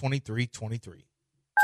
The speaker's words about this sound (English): Dial the phone.